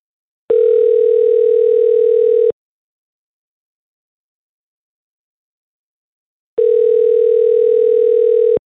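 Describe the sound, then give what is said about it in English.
Telephone line tones sound while a call is being placed: two long, steady tones of about two seconds each, separated by roughly four seconds of silence, with no voices. “let's call Cassie and see if we can get a hold of her and find out what the situation is”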